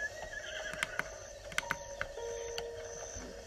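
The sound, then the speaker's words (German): A horse in a video game whinnies faintly, a wavering, high-pitched neigh mixed with a few sharp clicking hoof sounds over a quiet background. “blödes Pferd.”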